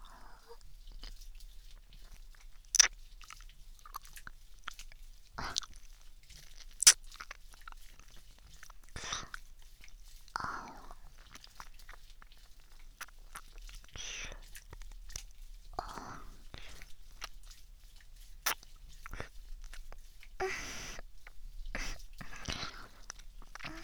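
Faint wet chewing and nibbling mouth sounds in a roleplay of eating fingers, starting with the index finger: many small clicks and soft crunches at an irregular pace, with a few sharper snaps.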